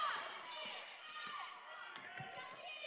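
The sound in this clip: A basketball is dribbled on the court during a women's game involving Amherst. A few low, dull bounces sit under steady crowd noise and a commentator's voice.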